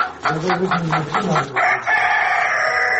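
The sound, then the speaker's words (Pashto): Hens and roosters among leaves and litter in a courtyard: a quick run of loud, rhythmic clucks, then a drawn-out crow that holds steady to the end. “په دغه پاڼو او خاشو کې یو شمېر چرګې چرګان مشوکي وهي.”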